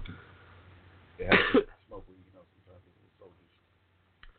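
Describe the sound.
Coughing from weed smoke stuck in the throat: one short, harsh, raspy burst, followed by a few quieter, scattered throat sounds that fade away.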